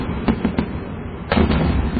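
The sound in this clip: Fireworks lit with a cigarette go off one after another: a few sharp bangs in quick succession over a steady rumbling crackle, with a second cluster of louder bursts near the end.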